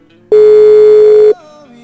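A telephone ringback tone sounds while a call waits to be answered: one loud, steady electronic tone held for about a second, then cut off and followed by a fainter, lower tone.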